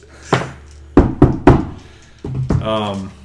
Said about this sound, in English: I'm going to bang on the door.